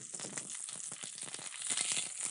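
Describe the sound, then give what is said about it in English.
Seared tuna crackles faintly in a hot pan, with many small, quick pops over a soft, continuous sizzle. “Ooh, it's still crackling.”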